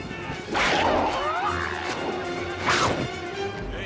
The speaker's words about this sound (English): She climbs down the ladder and kicks the pipe hard.